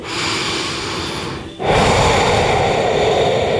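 Deep breathing during a calm pause: one long, airy breath, then a brief gap, then a second, louder and fuller breath that carries on to the end, with no talk.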